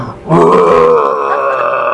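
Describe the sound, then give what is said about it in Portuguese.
A voice imitates four hungry stomachs growling at once: a low, sustained, groaning growl that begins after a brief quiet moment and holds for almost two seconds. “Esse é o barulho de 4 estômagos roncando ao mesmo tempo. Porque vocês não comeram.”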